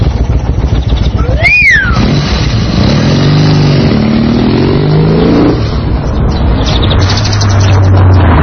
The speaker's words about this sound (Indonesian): ada mobil lewat.